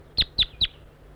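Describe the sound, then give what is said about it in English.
A wild bird calls with three short, high chirps, evenly spaced and clear against a faint background hiss. “Calling to the wild bird.”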